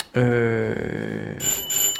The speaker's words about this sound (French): Et ça, c'est une sonnette de porte.